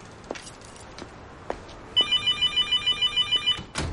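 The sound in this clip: A mobile phone rings in a flat with a high electronic ringtone: many rapid, evenly pulsed beeps that begin midway and stop shortly before the end, after a few faint scattered clicks.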